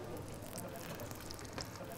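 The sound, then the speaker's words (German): Halloumi grill cheese searing on a grill plate for grilled-cheese burgers: a faint, steady, crackling sizzle hiss that continues without a break. “Und dann grillen wir jetzt den Käse mal richtig schön scharf an.”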